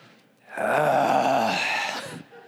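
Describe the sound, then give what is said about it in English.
Audience members groaning in disapproval at a rude patron: one loud, sustained, voiced groan that swells quickly, holds for well over a second and then fades away. “I heard some people groan too.”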